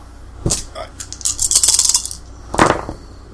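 Dice rolled during a tabletop game: a sharp clatter, a rattling tumble of hard little knocks, then another burst of clattering as they settle.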